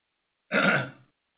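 A single short burp after drinking Coke, a throaty mid-pitched gurgle lasting about half a second, heard alone.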